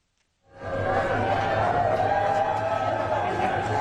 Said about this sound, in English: That's the sound of a crowd greeting U.S. President Joe Biden in Nantucket, a Massachusetts beach town